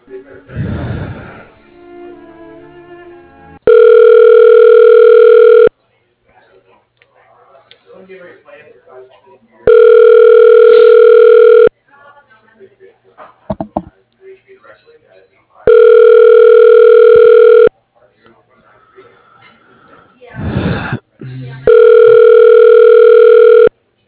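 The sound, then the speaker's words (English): Telephone line tones while a call is transferred to voicemail: four long, steady, buzzy tones of about two seconds each, separated by stretches of quieter voices and line noise. “I can transfer you to his voicemail. Please hold.”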